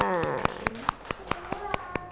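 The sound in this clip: Children clapping in a classroom for a classmate, a steady run of about ten evenly spaced sharp claps, with a voice speaking near the start.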